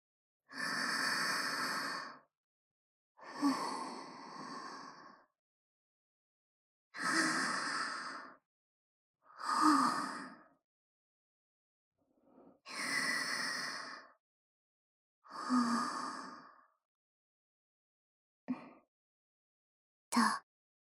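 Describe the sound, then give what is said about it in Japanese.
Deep breathing to calm down: slow, soft inhales and exhales with quiet pauses between, about six long breaths followed by two shorter ones near the end. “深呼吸して、気持ちを落ち着かせてみるから。”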